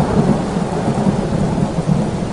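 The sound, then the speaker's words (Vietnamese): Thunder rolls through a heavy storm as a loud, steady, low rumble that lasts throughout without a sharp crack, with a hiss of rain underneath. “Một tiếng sét nổ vang lên, chấn động khiến đất rung núi chuyển.”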